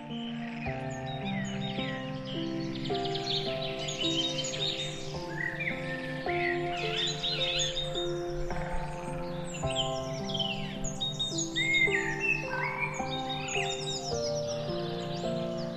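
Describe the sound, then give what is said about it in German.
Bird chirping in a spring forest, many quick, high tweets and trills running throughout over a steady, low tonal background. “Nachdem ihr ein paar Schritte durch den Wald gelaufen seid, nimmst du ein herzzerreißendes Zwitschern wahr.”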